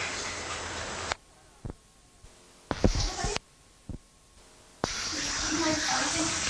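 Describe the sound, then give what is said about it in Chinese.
Tap water runs for hand washing in a steady hiss that stops for several seconds, with a few sharp knocks and clatters in the gap, then gushes on again. “好，洗手咯，洗手咯。”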